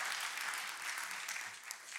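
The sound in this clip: Applause welcoming a preacher: a faint, dense, steady patter of many hands clapping together without a break.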